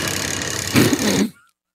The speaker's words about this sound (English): You hear that? You can actually hear the tractor trailer or just a tractor in the background.